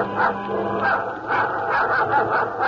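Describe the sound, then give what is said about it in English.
A dog growls aboard a small bait barge, a rough, continuous, low snarl that swells and eases slightly over a few seconds, with no talk over it. “Suddenly, she hears Bobo's dog growling.”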